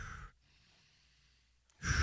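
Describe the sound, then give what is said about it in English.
Deep breaths are taken, with one airy exhalation at the start and another beginning at the end. Near silence separates them. “Give me three deep breaths.”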